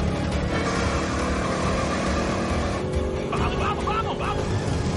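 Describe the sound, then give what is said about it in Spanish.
Loud engine roar from a Chevrolet and a Ford in a street race scene from the film Fast & Furious 8, with nitrous oxide in use; a dense, continuous revving drone runs steadily throughout. “El Chevrolet se acerca al Ford a una velocidad vertiginosa.”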